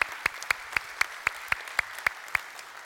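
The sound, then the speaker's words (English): A church audience claps in a steady, evenly spaced rhythm: a faint run of sharp claps at a regular pulse, each one distinct over a quiet background. “So you guys who are here, if you would, put your hands together.”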